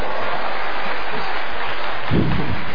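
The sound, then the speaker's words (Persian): An audience applauding a guest's wife, dense and steady clapping that stays loud and continuous throughout with no break. “همسر ایشون افتخارشون دست بزنیم خودتون.”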